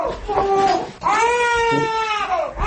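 Crying of a two-month-old infant at home: loud, strained wailing in two long bursts, the second a drawn-out harmonic cry that slides downward in pitch near its end.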